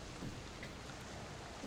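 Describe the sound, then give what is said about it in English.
Heavy rain pours down during a raging storm, a steady, dense hiss that holds unbroken throughout without any distinct drops or rumbles standing out. “And the storm continues and continues to rage.”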